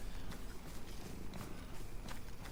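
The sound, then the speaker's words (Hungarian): A cat purrs in a continuous soft, rumbling stream with a gentle, even pulse, quiet and steady throughout with no voices. “Jaj, te cica. Ez így egy picit kényelmetlen, de így is imádnak.”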